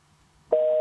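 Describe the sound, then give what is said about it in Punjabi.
A steady electronic busy tone after a phone call drops on a faulty line, starting abruptly after a moment of faint line hiss and holding at one even mid pitch, loud and continuous until the end. “Disconnect ਹੋ ਗਿਆ, ਜਾਂ ਤੇ ਕਿਸੇ line ਦੇ ਵਿੱਚ ਥੋੜਾ ਬਹੁਤ ਕੋਈ ਫਾਲਟ ਹੈ।”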